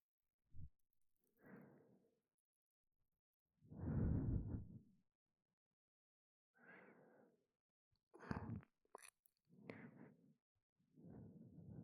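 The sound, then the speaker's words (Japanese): Gentle ASMR ear cleaning, done slowly and carefully, comes as a string of soft, breathy rustling strokes separated by short quiet pauses, with no talking. “お耳が傷ついてしまうかもしれませんから、ゆっくり優しく、慎重にお耳掃除させていただきます。”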